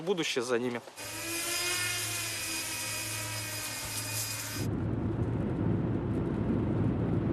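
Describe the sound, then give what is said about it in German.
A work drone in flight gives a steady, high buzzing motor whine with tonal overtones. A brief voice comes just before it, and the whine later gives way to a rougher, lower rushing noise. “Die Steuerung fühlt sich gewohnt gut an. Es ist eine gute Arbeitsdrohne.”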